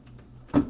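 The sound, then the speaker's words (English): A single dull clunk as a microphone is turned around and locked into place, brief and moderately loud after a moment of faint handling noise. “Let me turn the microphone around and try to lock this thing down, and I'll try football for you, okay?”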